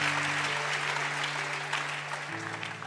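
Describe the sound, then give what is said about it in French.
A church audience applauding during a service: steady, dense clapping from many hands that holds at an even level for about three seconds, then eases slightly at the end, with no voices standing out. “Quelqu'un acclame encore Jésus.”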